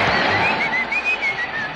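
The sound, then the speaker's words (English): Whistling: a thin, wavering tune that rises and dips in steady phrases over a constant noisy background. “I will now whistle a dirty joke.”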